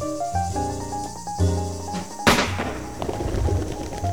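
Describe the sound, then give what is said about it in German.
A gunshot is fired into a picture, a single sharp, loud bang that bursts out midway, set among sustained tonal music before and after. “Ich kann ins Bild schießen, wo ich will. Soll ich noch ein Loch machen?”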